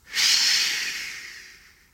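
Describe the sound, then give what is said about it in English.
A voice imitating a shushing sound: one breathy, hissing shh that starts sharply and tapers off gradually over about two seconds, heard alone. “He just went, shh. His breath. And the storm just went, bleh.”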